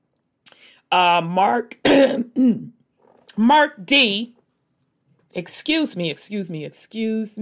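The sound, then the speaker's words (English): Someone clears their throat partway through their speech: one short, rough, rasping burst between spoken phrases. “had to clear my throat there. Sorry about that.”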